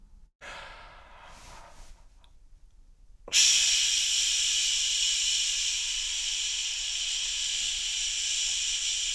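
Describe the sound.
A deep breath in during a breathing exercise: a short, softer breath first, then a loud, steady, airy hiss of inhaled air that holds for several seconds without talk.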